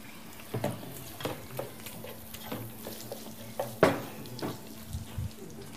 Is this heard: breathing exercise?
no